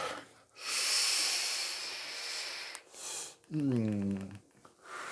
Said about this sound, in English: Took a big fat vape rip.